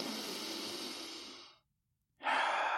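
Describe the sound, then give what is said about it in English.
A deep breath drawn on command during a talk about taking control of negative thoughts: a long, airy rush of breath, a short silence, then another loud, breathy rush, with no talk. “Say right now, take a deep breath.”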